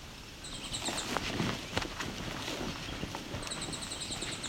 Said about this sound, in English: So it's the male and the female. Not sure if these calls are calls between each other, territorial warning.